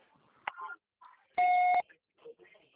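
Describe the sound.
A voicemail beep before a message is recorded: one steady electronic tone lasting about half a second, with brief bits of speech before and after it.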